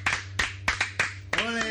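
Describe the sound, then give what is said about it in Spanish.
A few sharp, irregular hand claps of applause at the close of a session, followed at the end by a sustained voice. “Ahora ya se ha acabado la sesión ya de todo. Un aplauso.”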